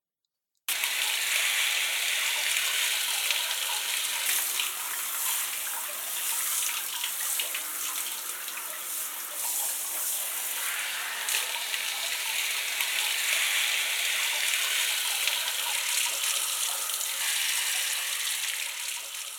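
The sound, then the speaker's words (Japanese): Steady running water rinsing something off, a continuous broad hiss from a tap or shower that holds evenly throughout with small fluctuations, no talk. “それでは流していきますね。”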